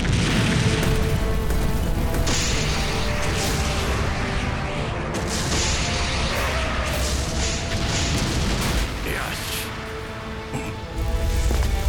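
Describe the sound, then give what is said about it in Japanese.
An interceptor system launching and firing, a loud, dense roar of booms and crashing blasts that runs almost unbroken, dips briefly near the end, then surges again. “カトン迎撃システム展開完了。 発射！”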